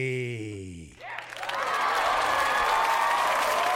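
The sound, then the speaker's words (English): Live studio audience applause greets a comedian guest. It breaks out after a brief voice and quickly swells into loud, dense, steady clapping that holds to the end. “That was a bigger applause than I got for James Corden when I walked on stage,”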